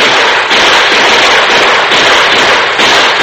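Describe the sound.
Rifle gunfire in a shootout from behind rocks, heard as loud, dense volleys of crackling shots that run almost unbroken, with only a few brief dips.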